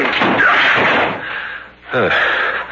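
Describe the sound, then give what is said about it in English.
A door is broken in as a radio drama sound effect. A loud, sustained burst of crashing, rattling noise is followed by a brief lull, then a second forceful burst. “Door is locked. Break it in.”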